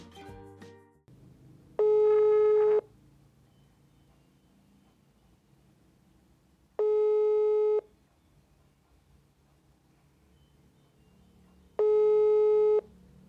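Telephone ringback tone on a call to a friend: three steady, single-pitched beeps, each about a second long, spaced several seconds apart over faint hiss.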